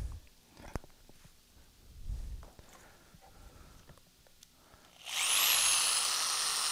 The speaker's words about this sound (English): wow. You can drill things.